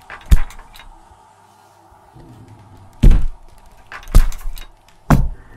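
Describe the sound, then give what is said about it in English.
A door being shaken, giving four heavy, irregularly spaced thumps. Faint low rattling fills the gaps between the knocks. “Sounds like I'm bumping into a wall. Thump. So it sounds like I'm shaking a door.”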